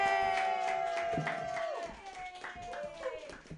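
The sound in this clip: Audience applause and cheering at a comedy show as a local comedian is introduced for a warm-up set: dense, steady clapping with high whoops and shouts mixed in throughout.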